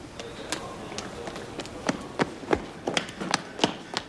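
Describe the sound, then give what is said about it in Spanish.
Footsteps of two men going down stairs into an alley sound as a quick, irregular run of soft taps and thuds. The steps are fairly faint and come many in succession. “bajan unas escaleras hasta un callejón”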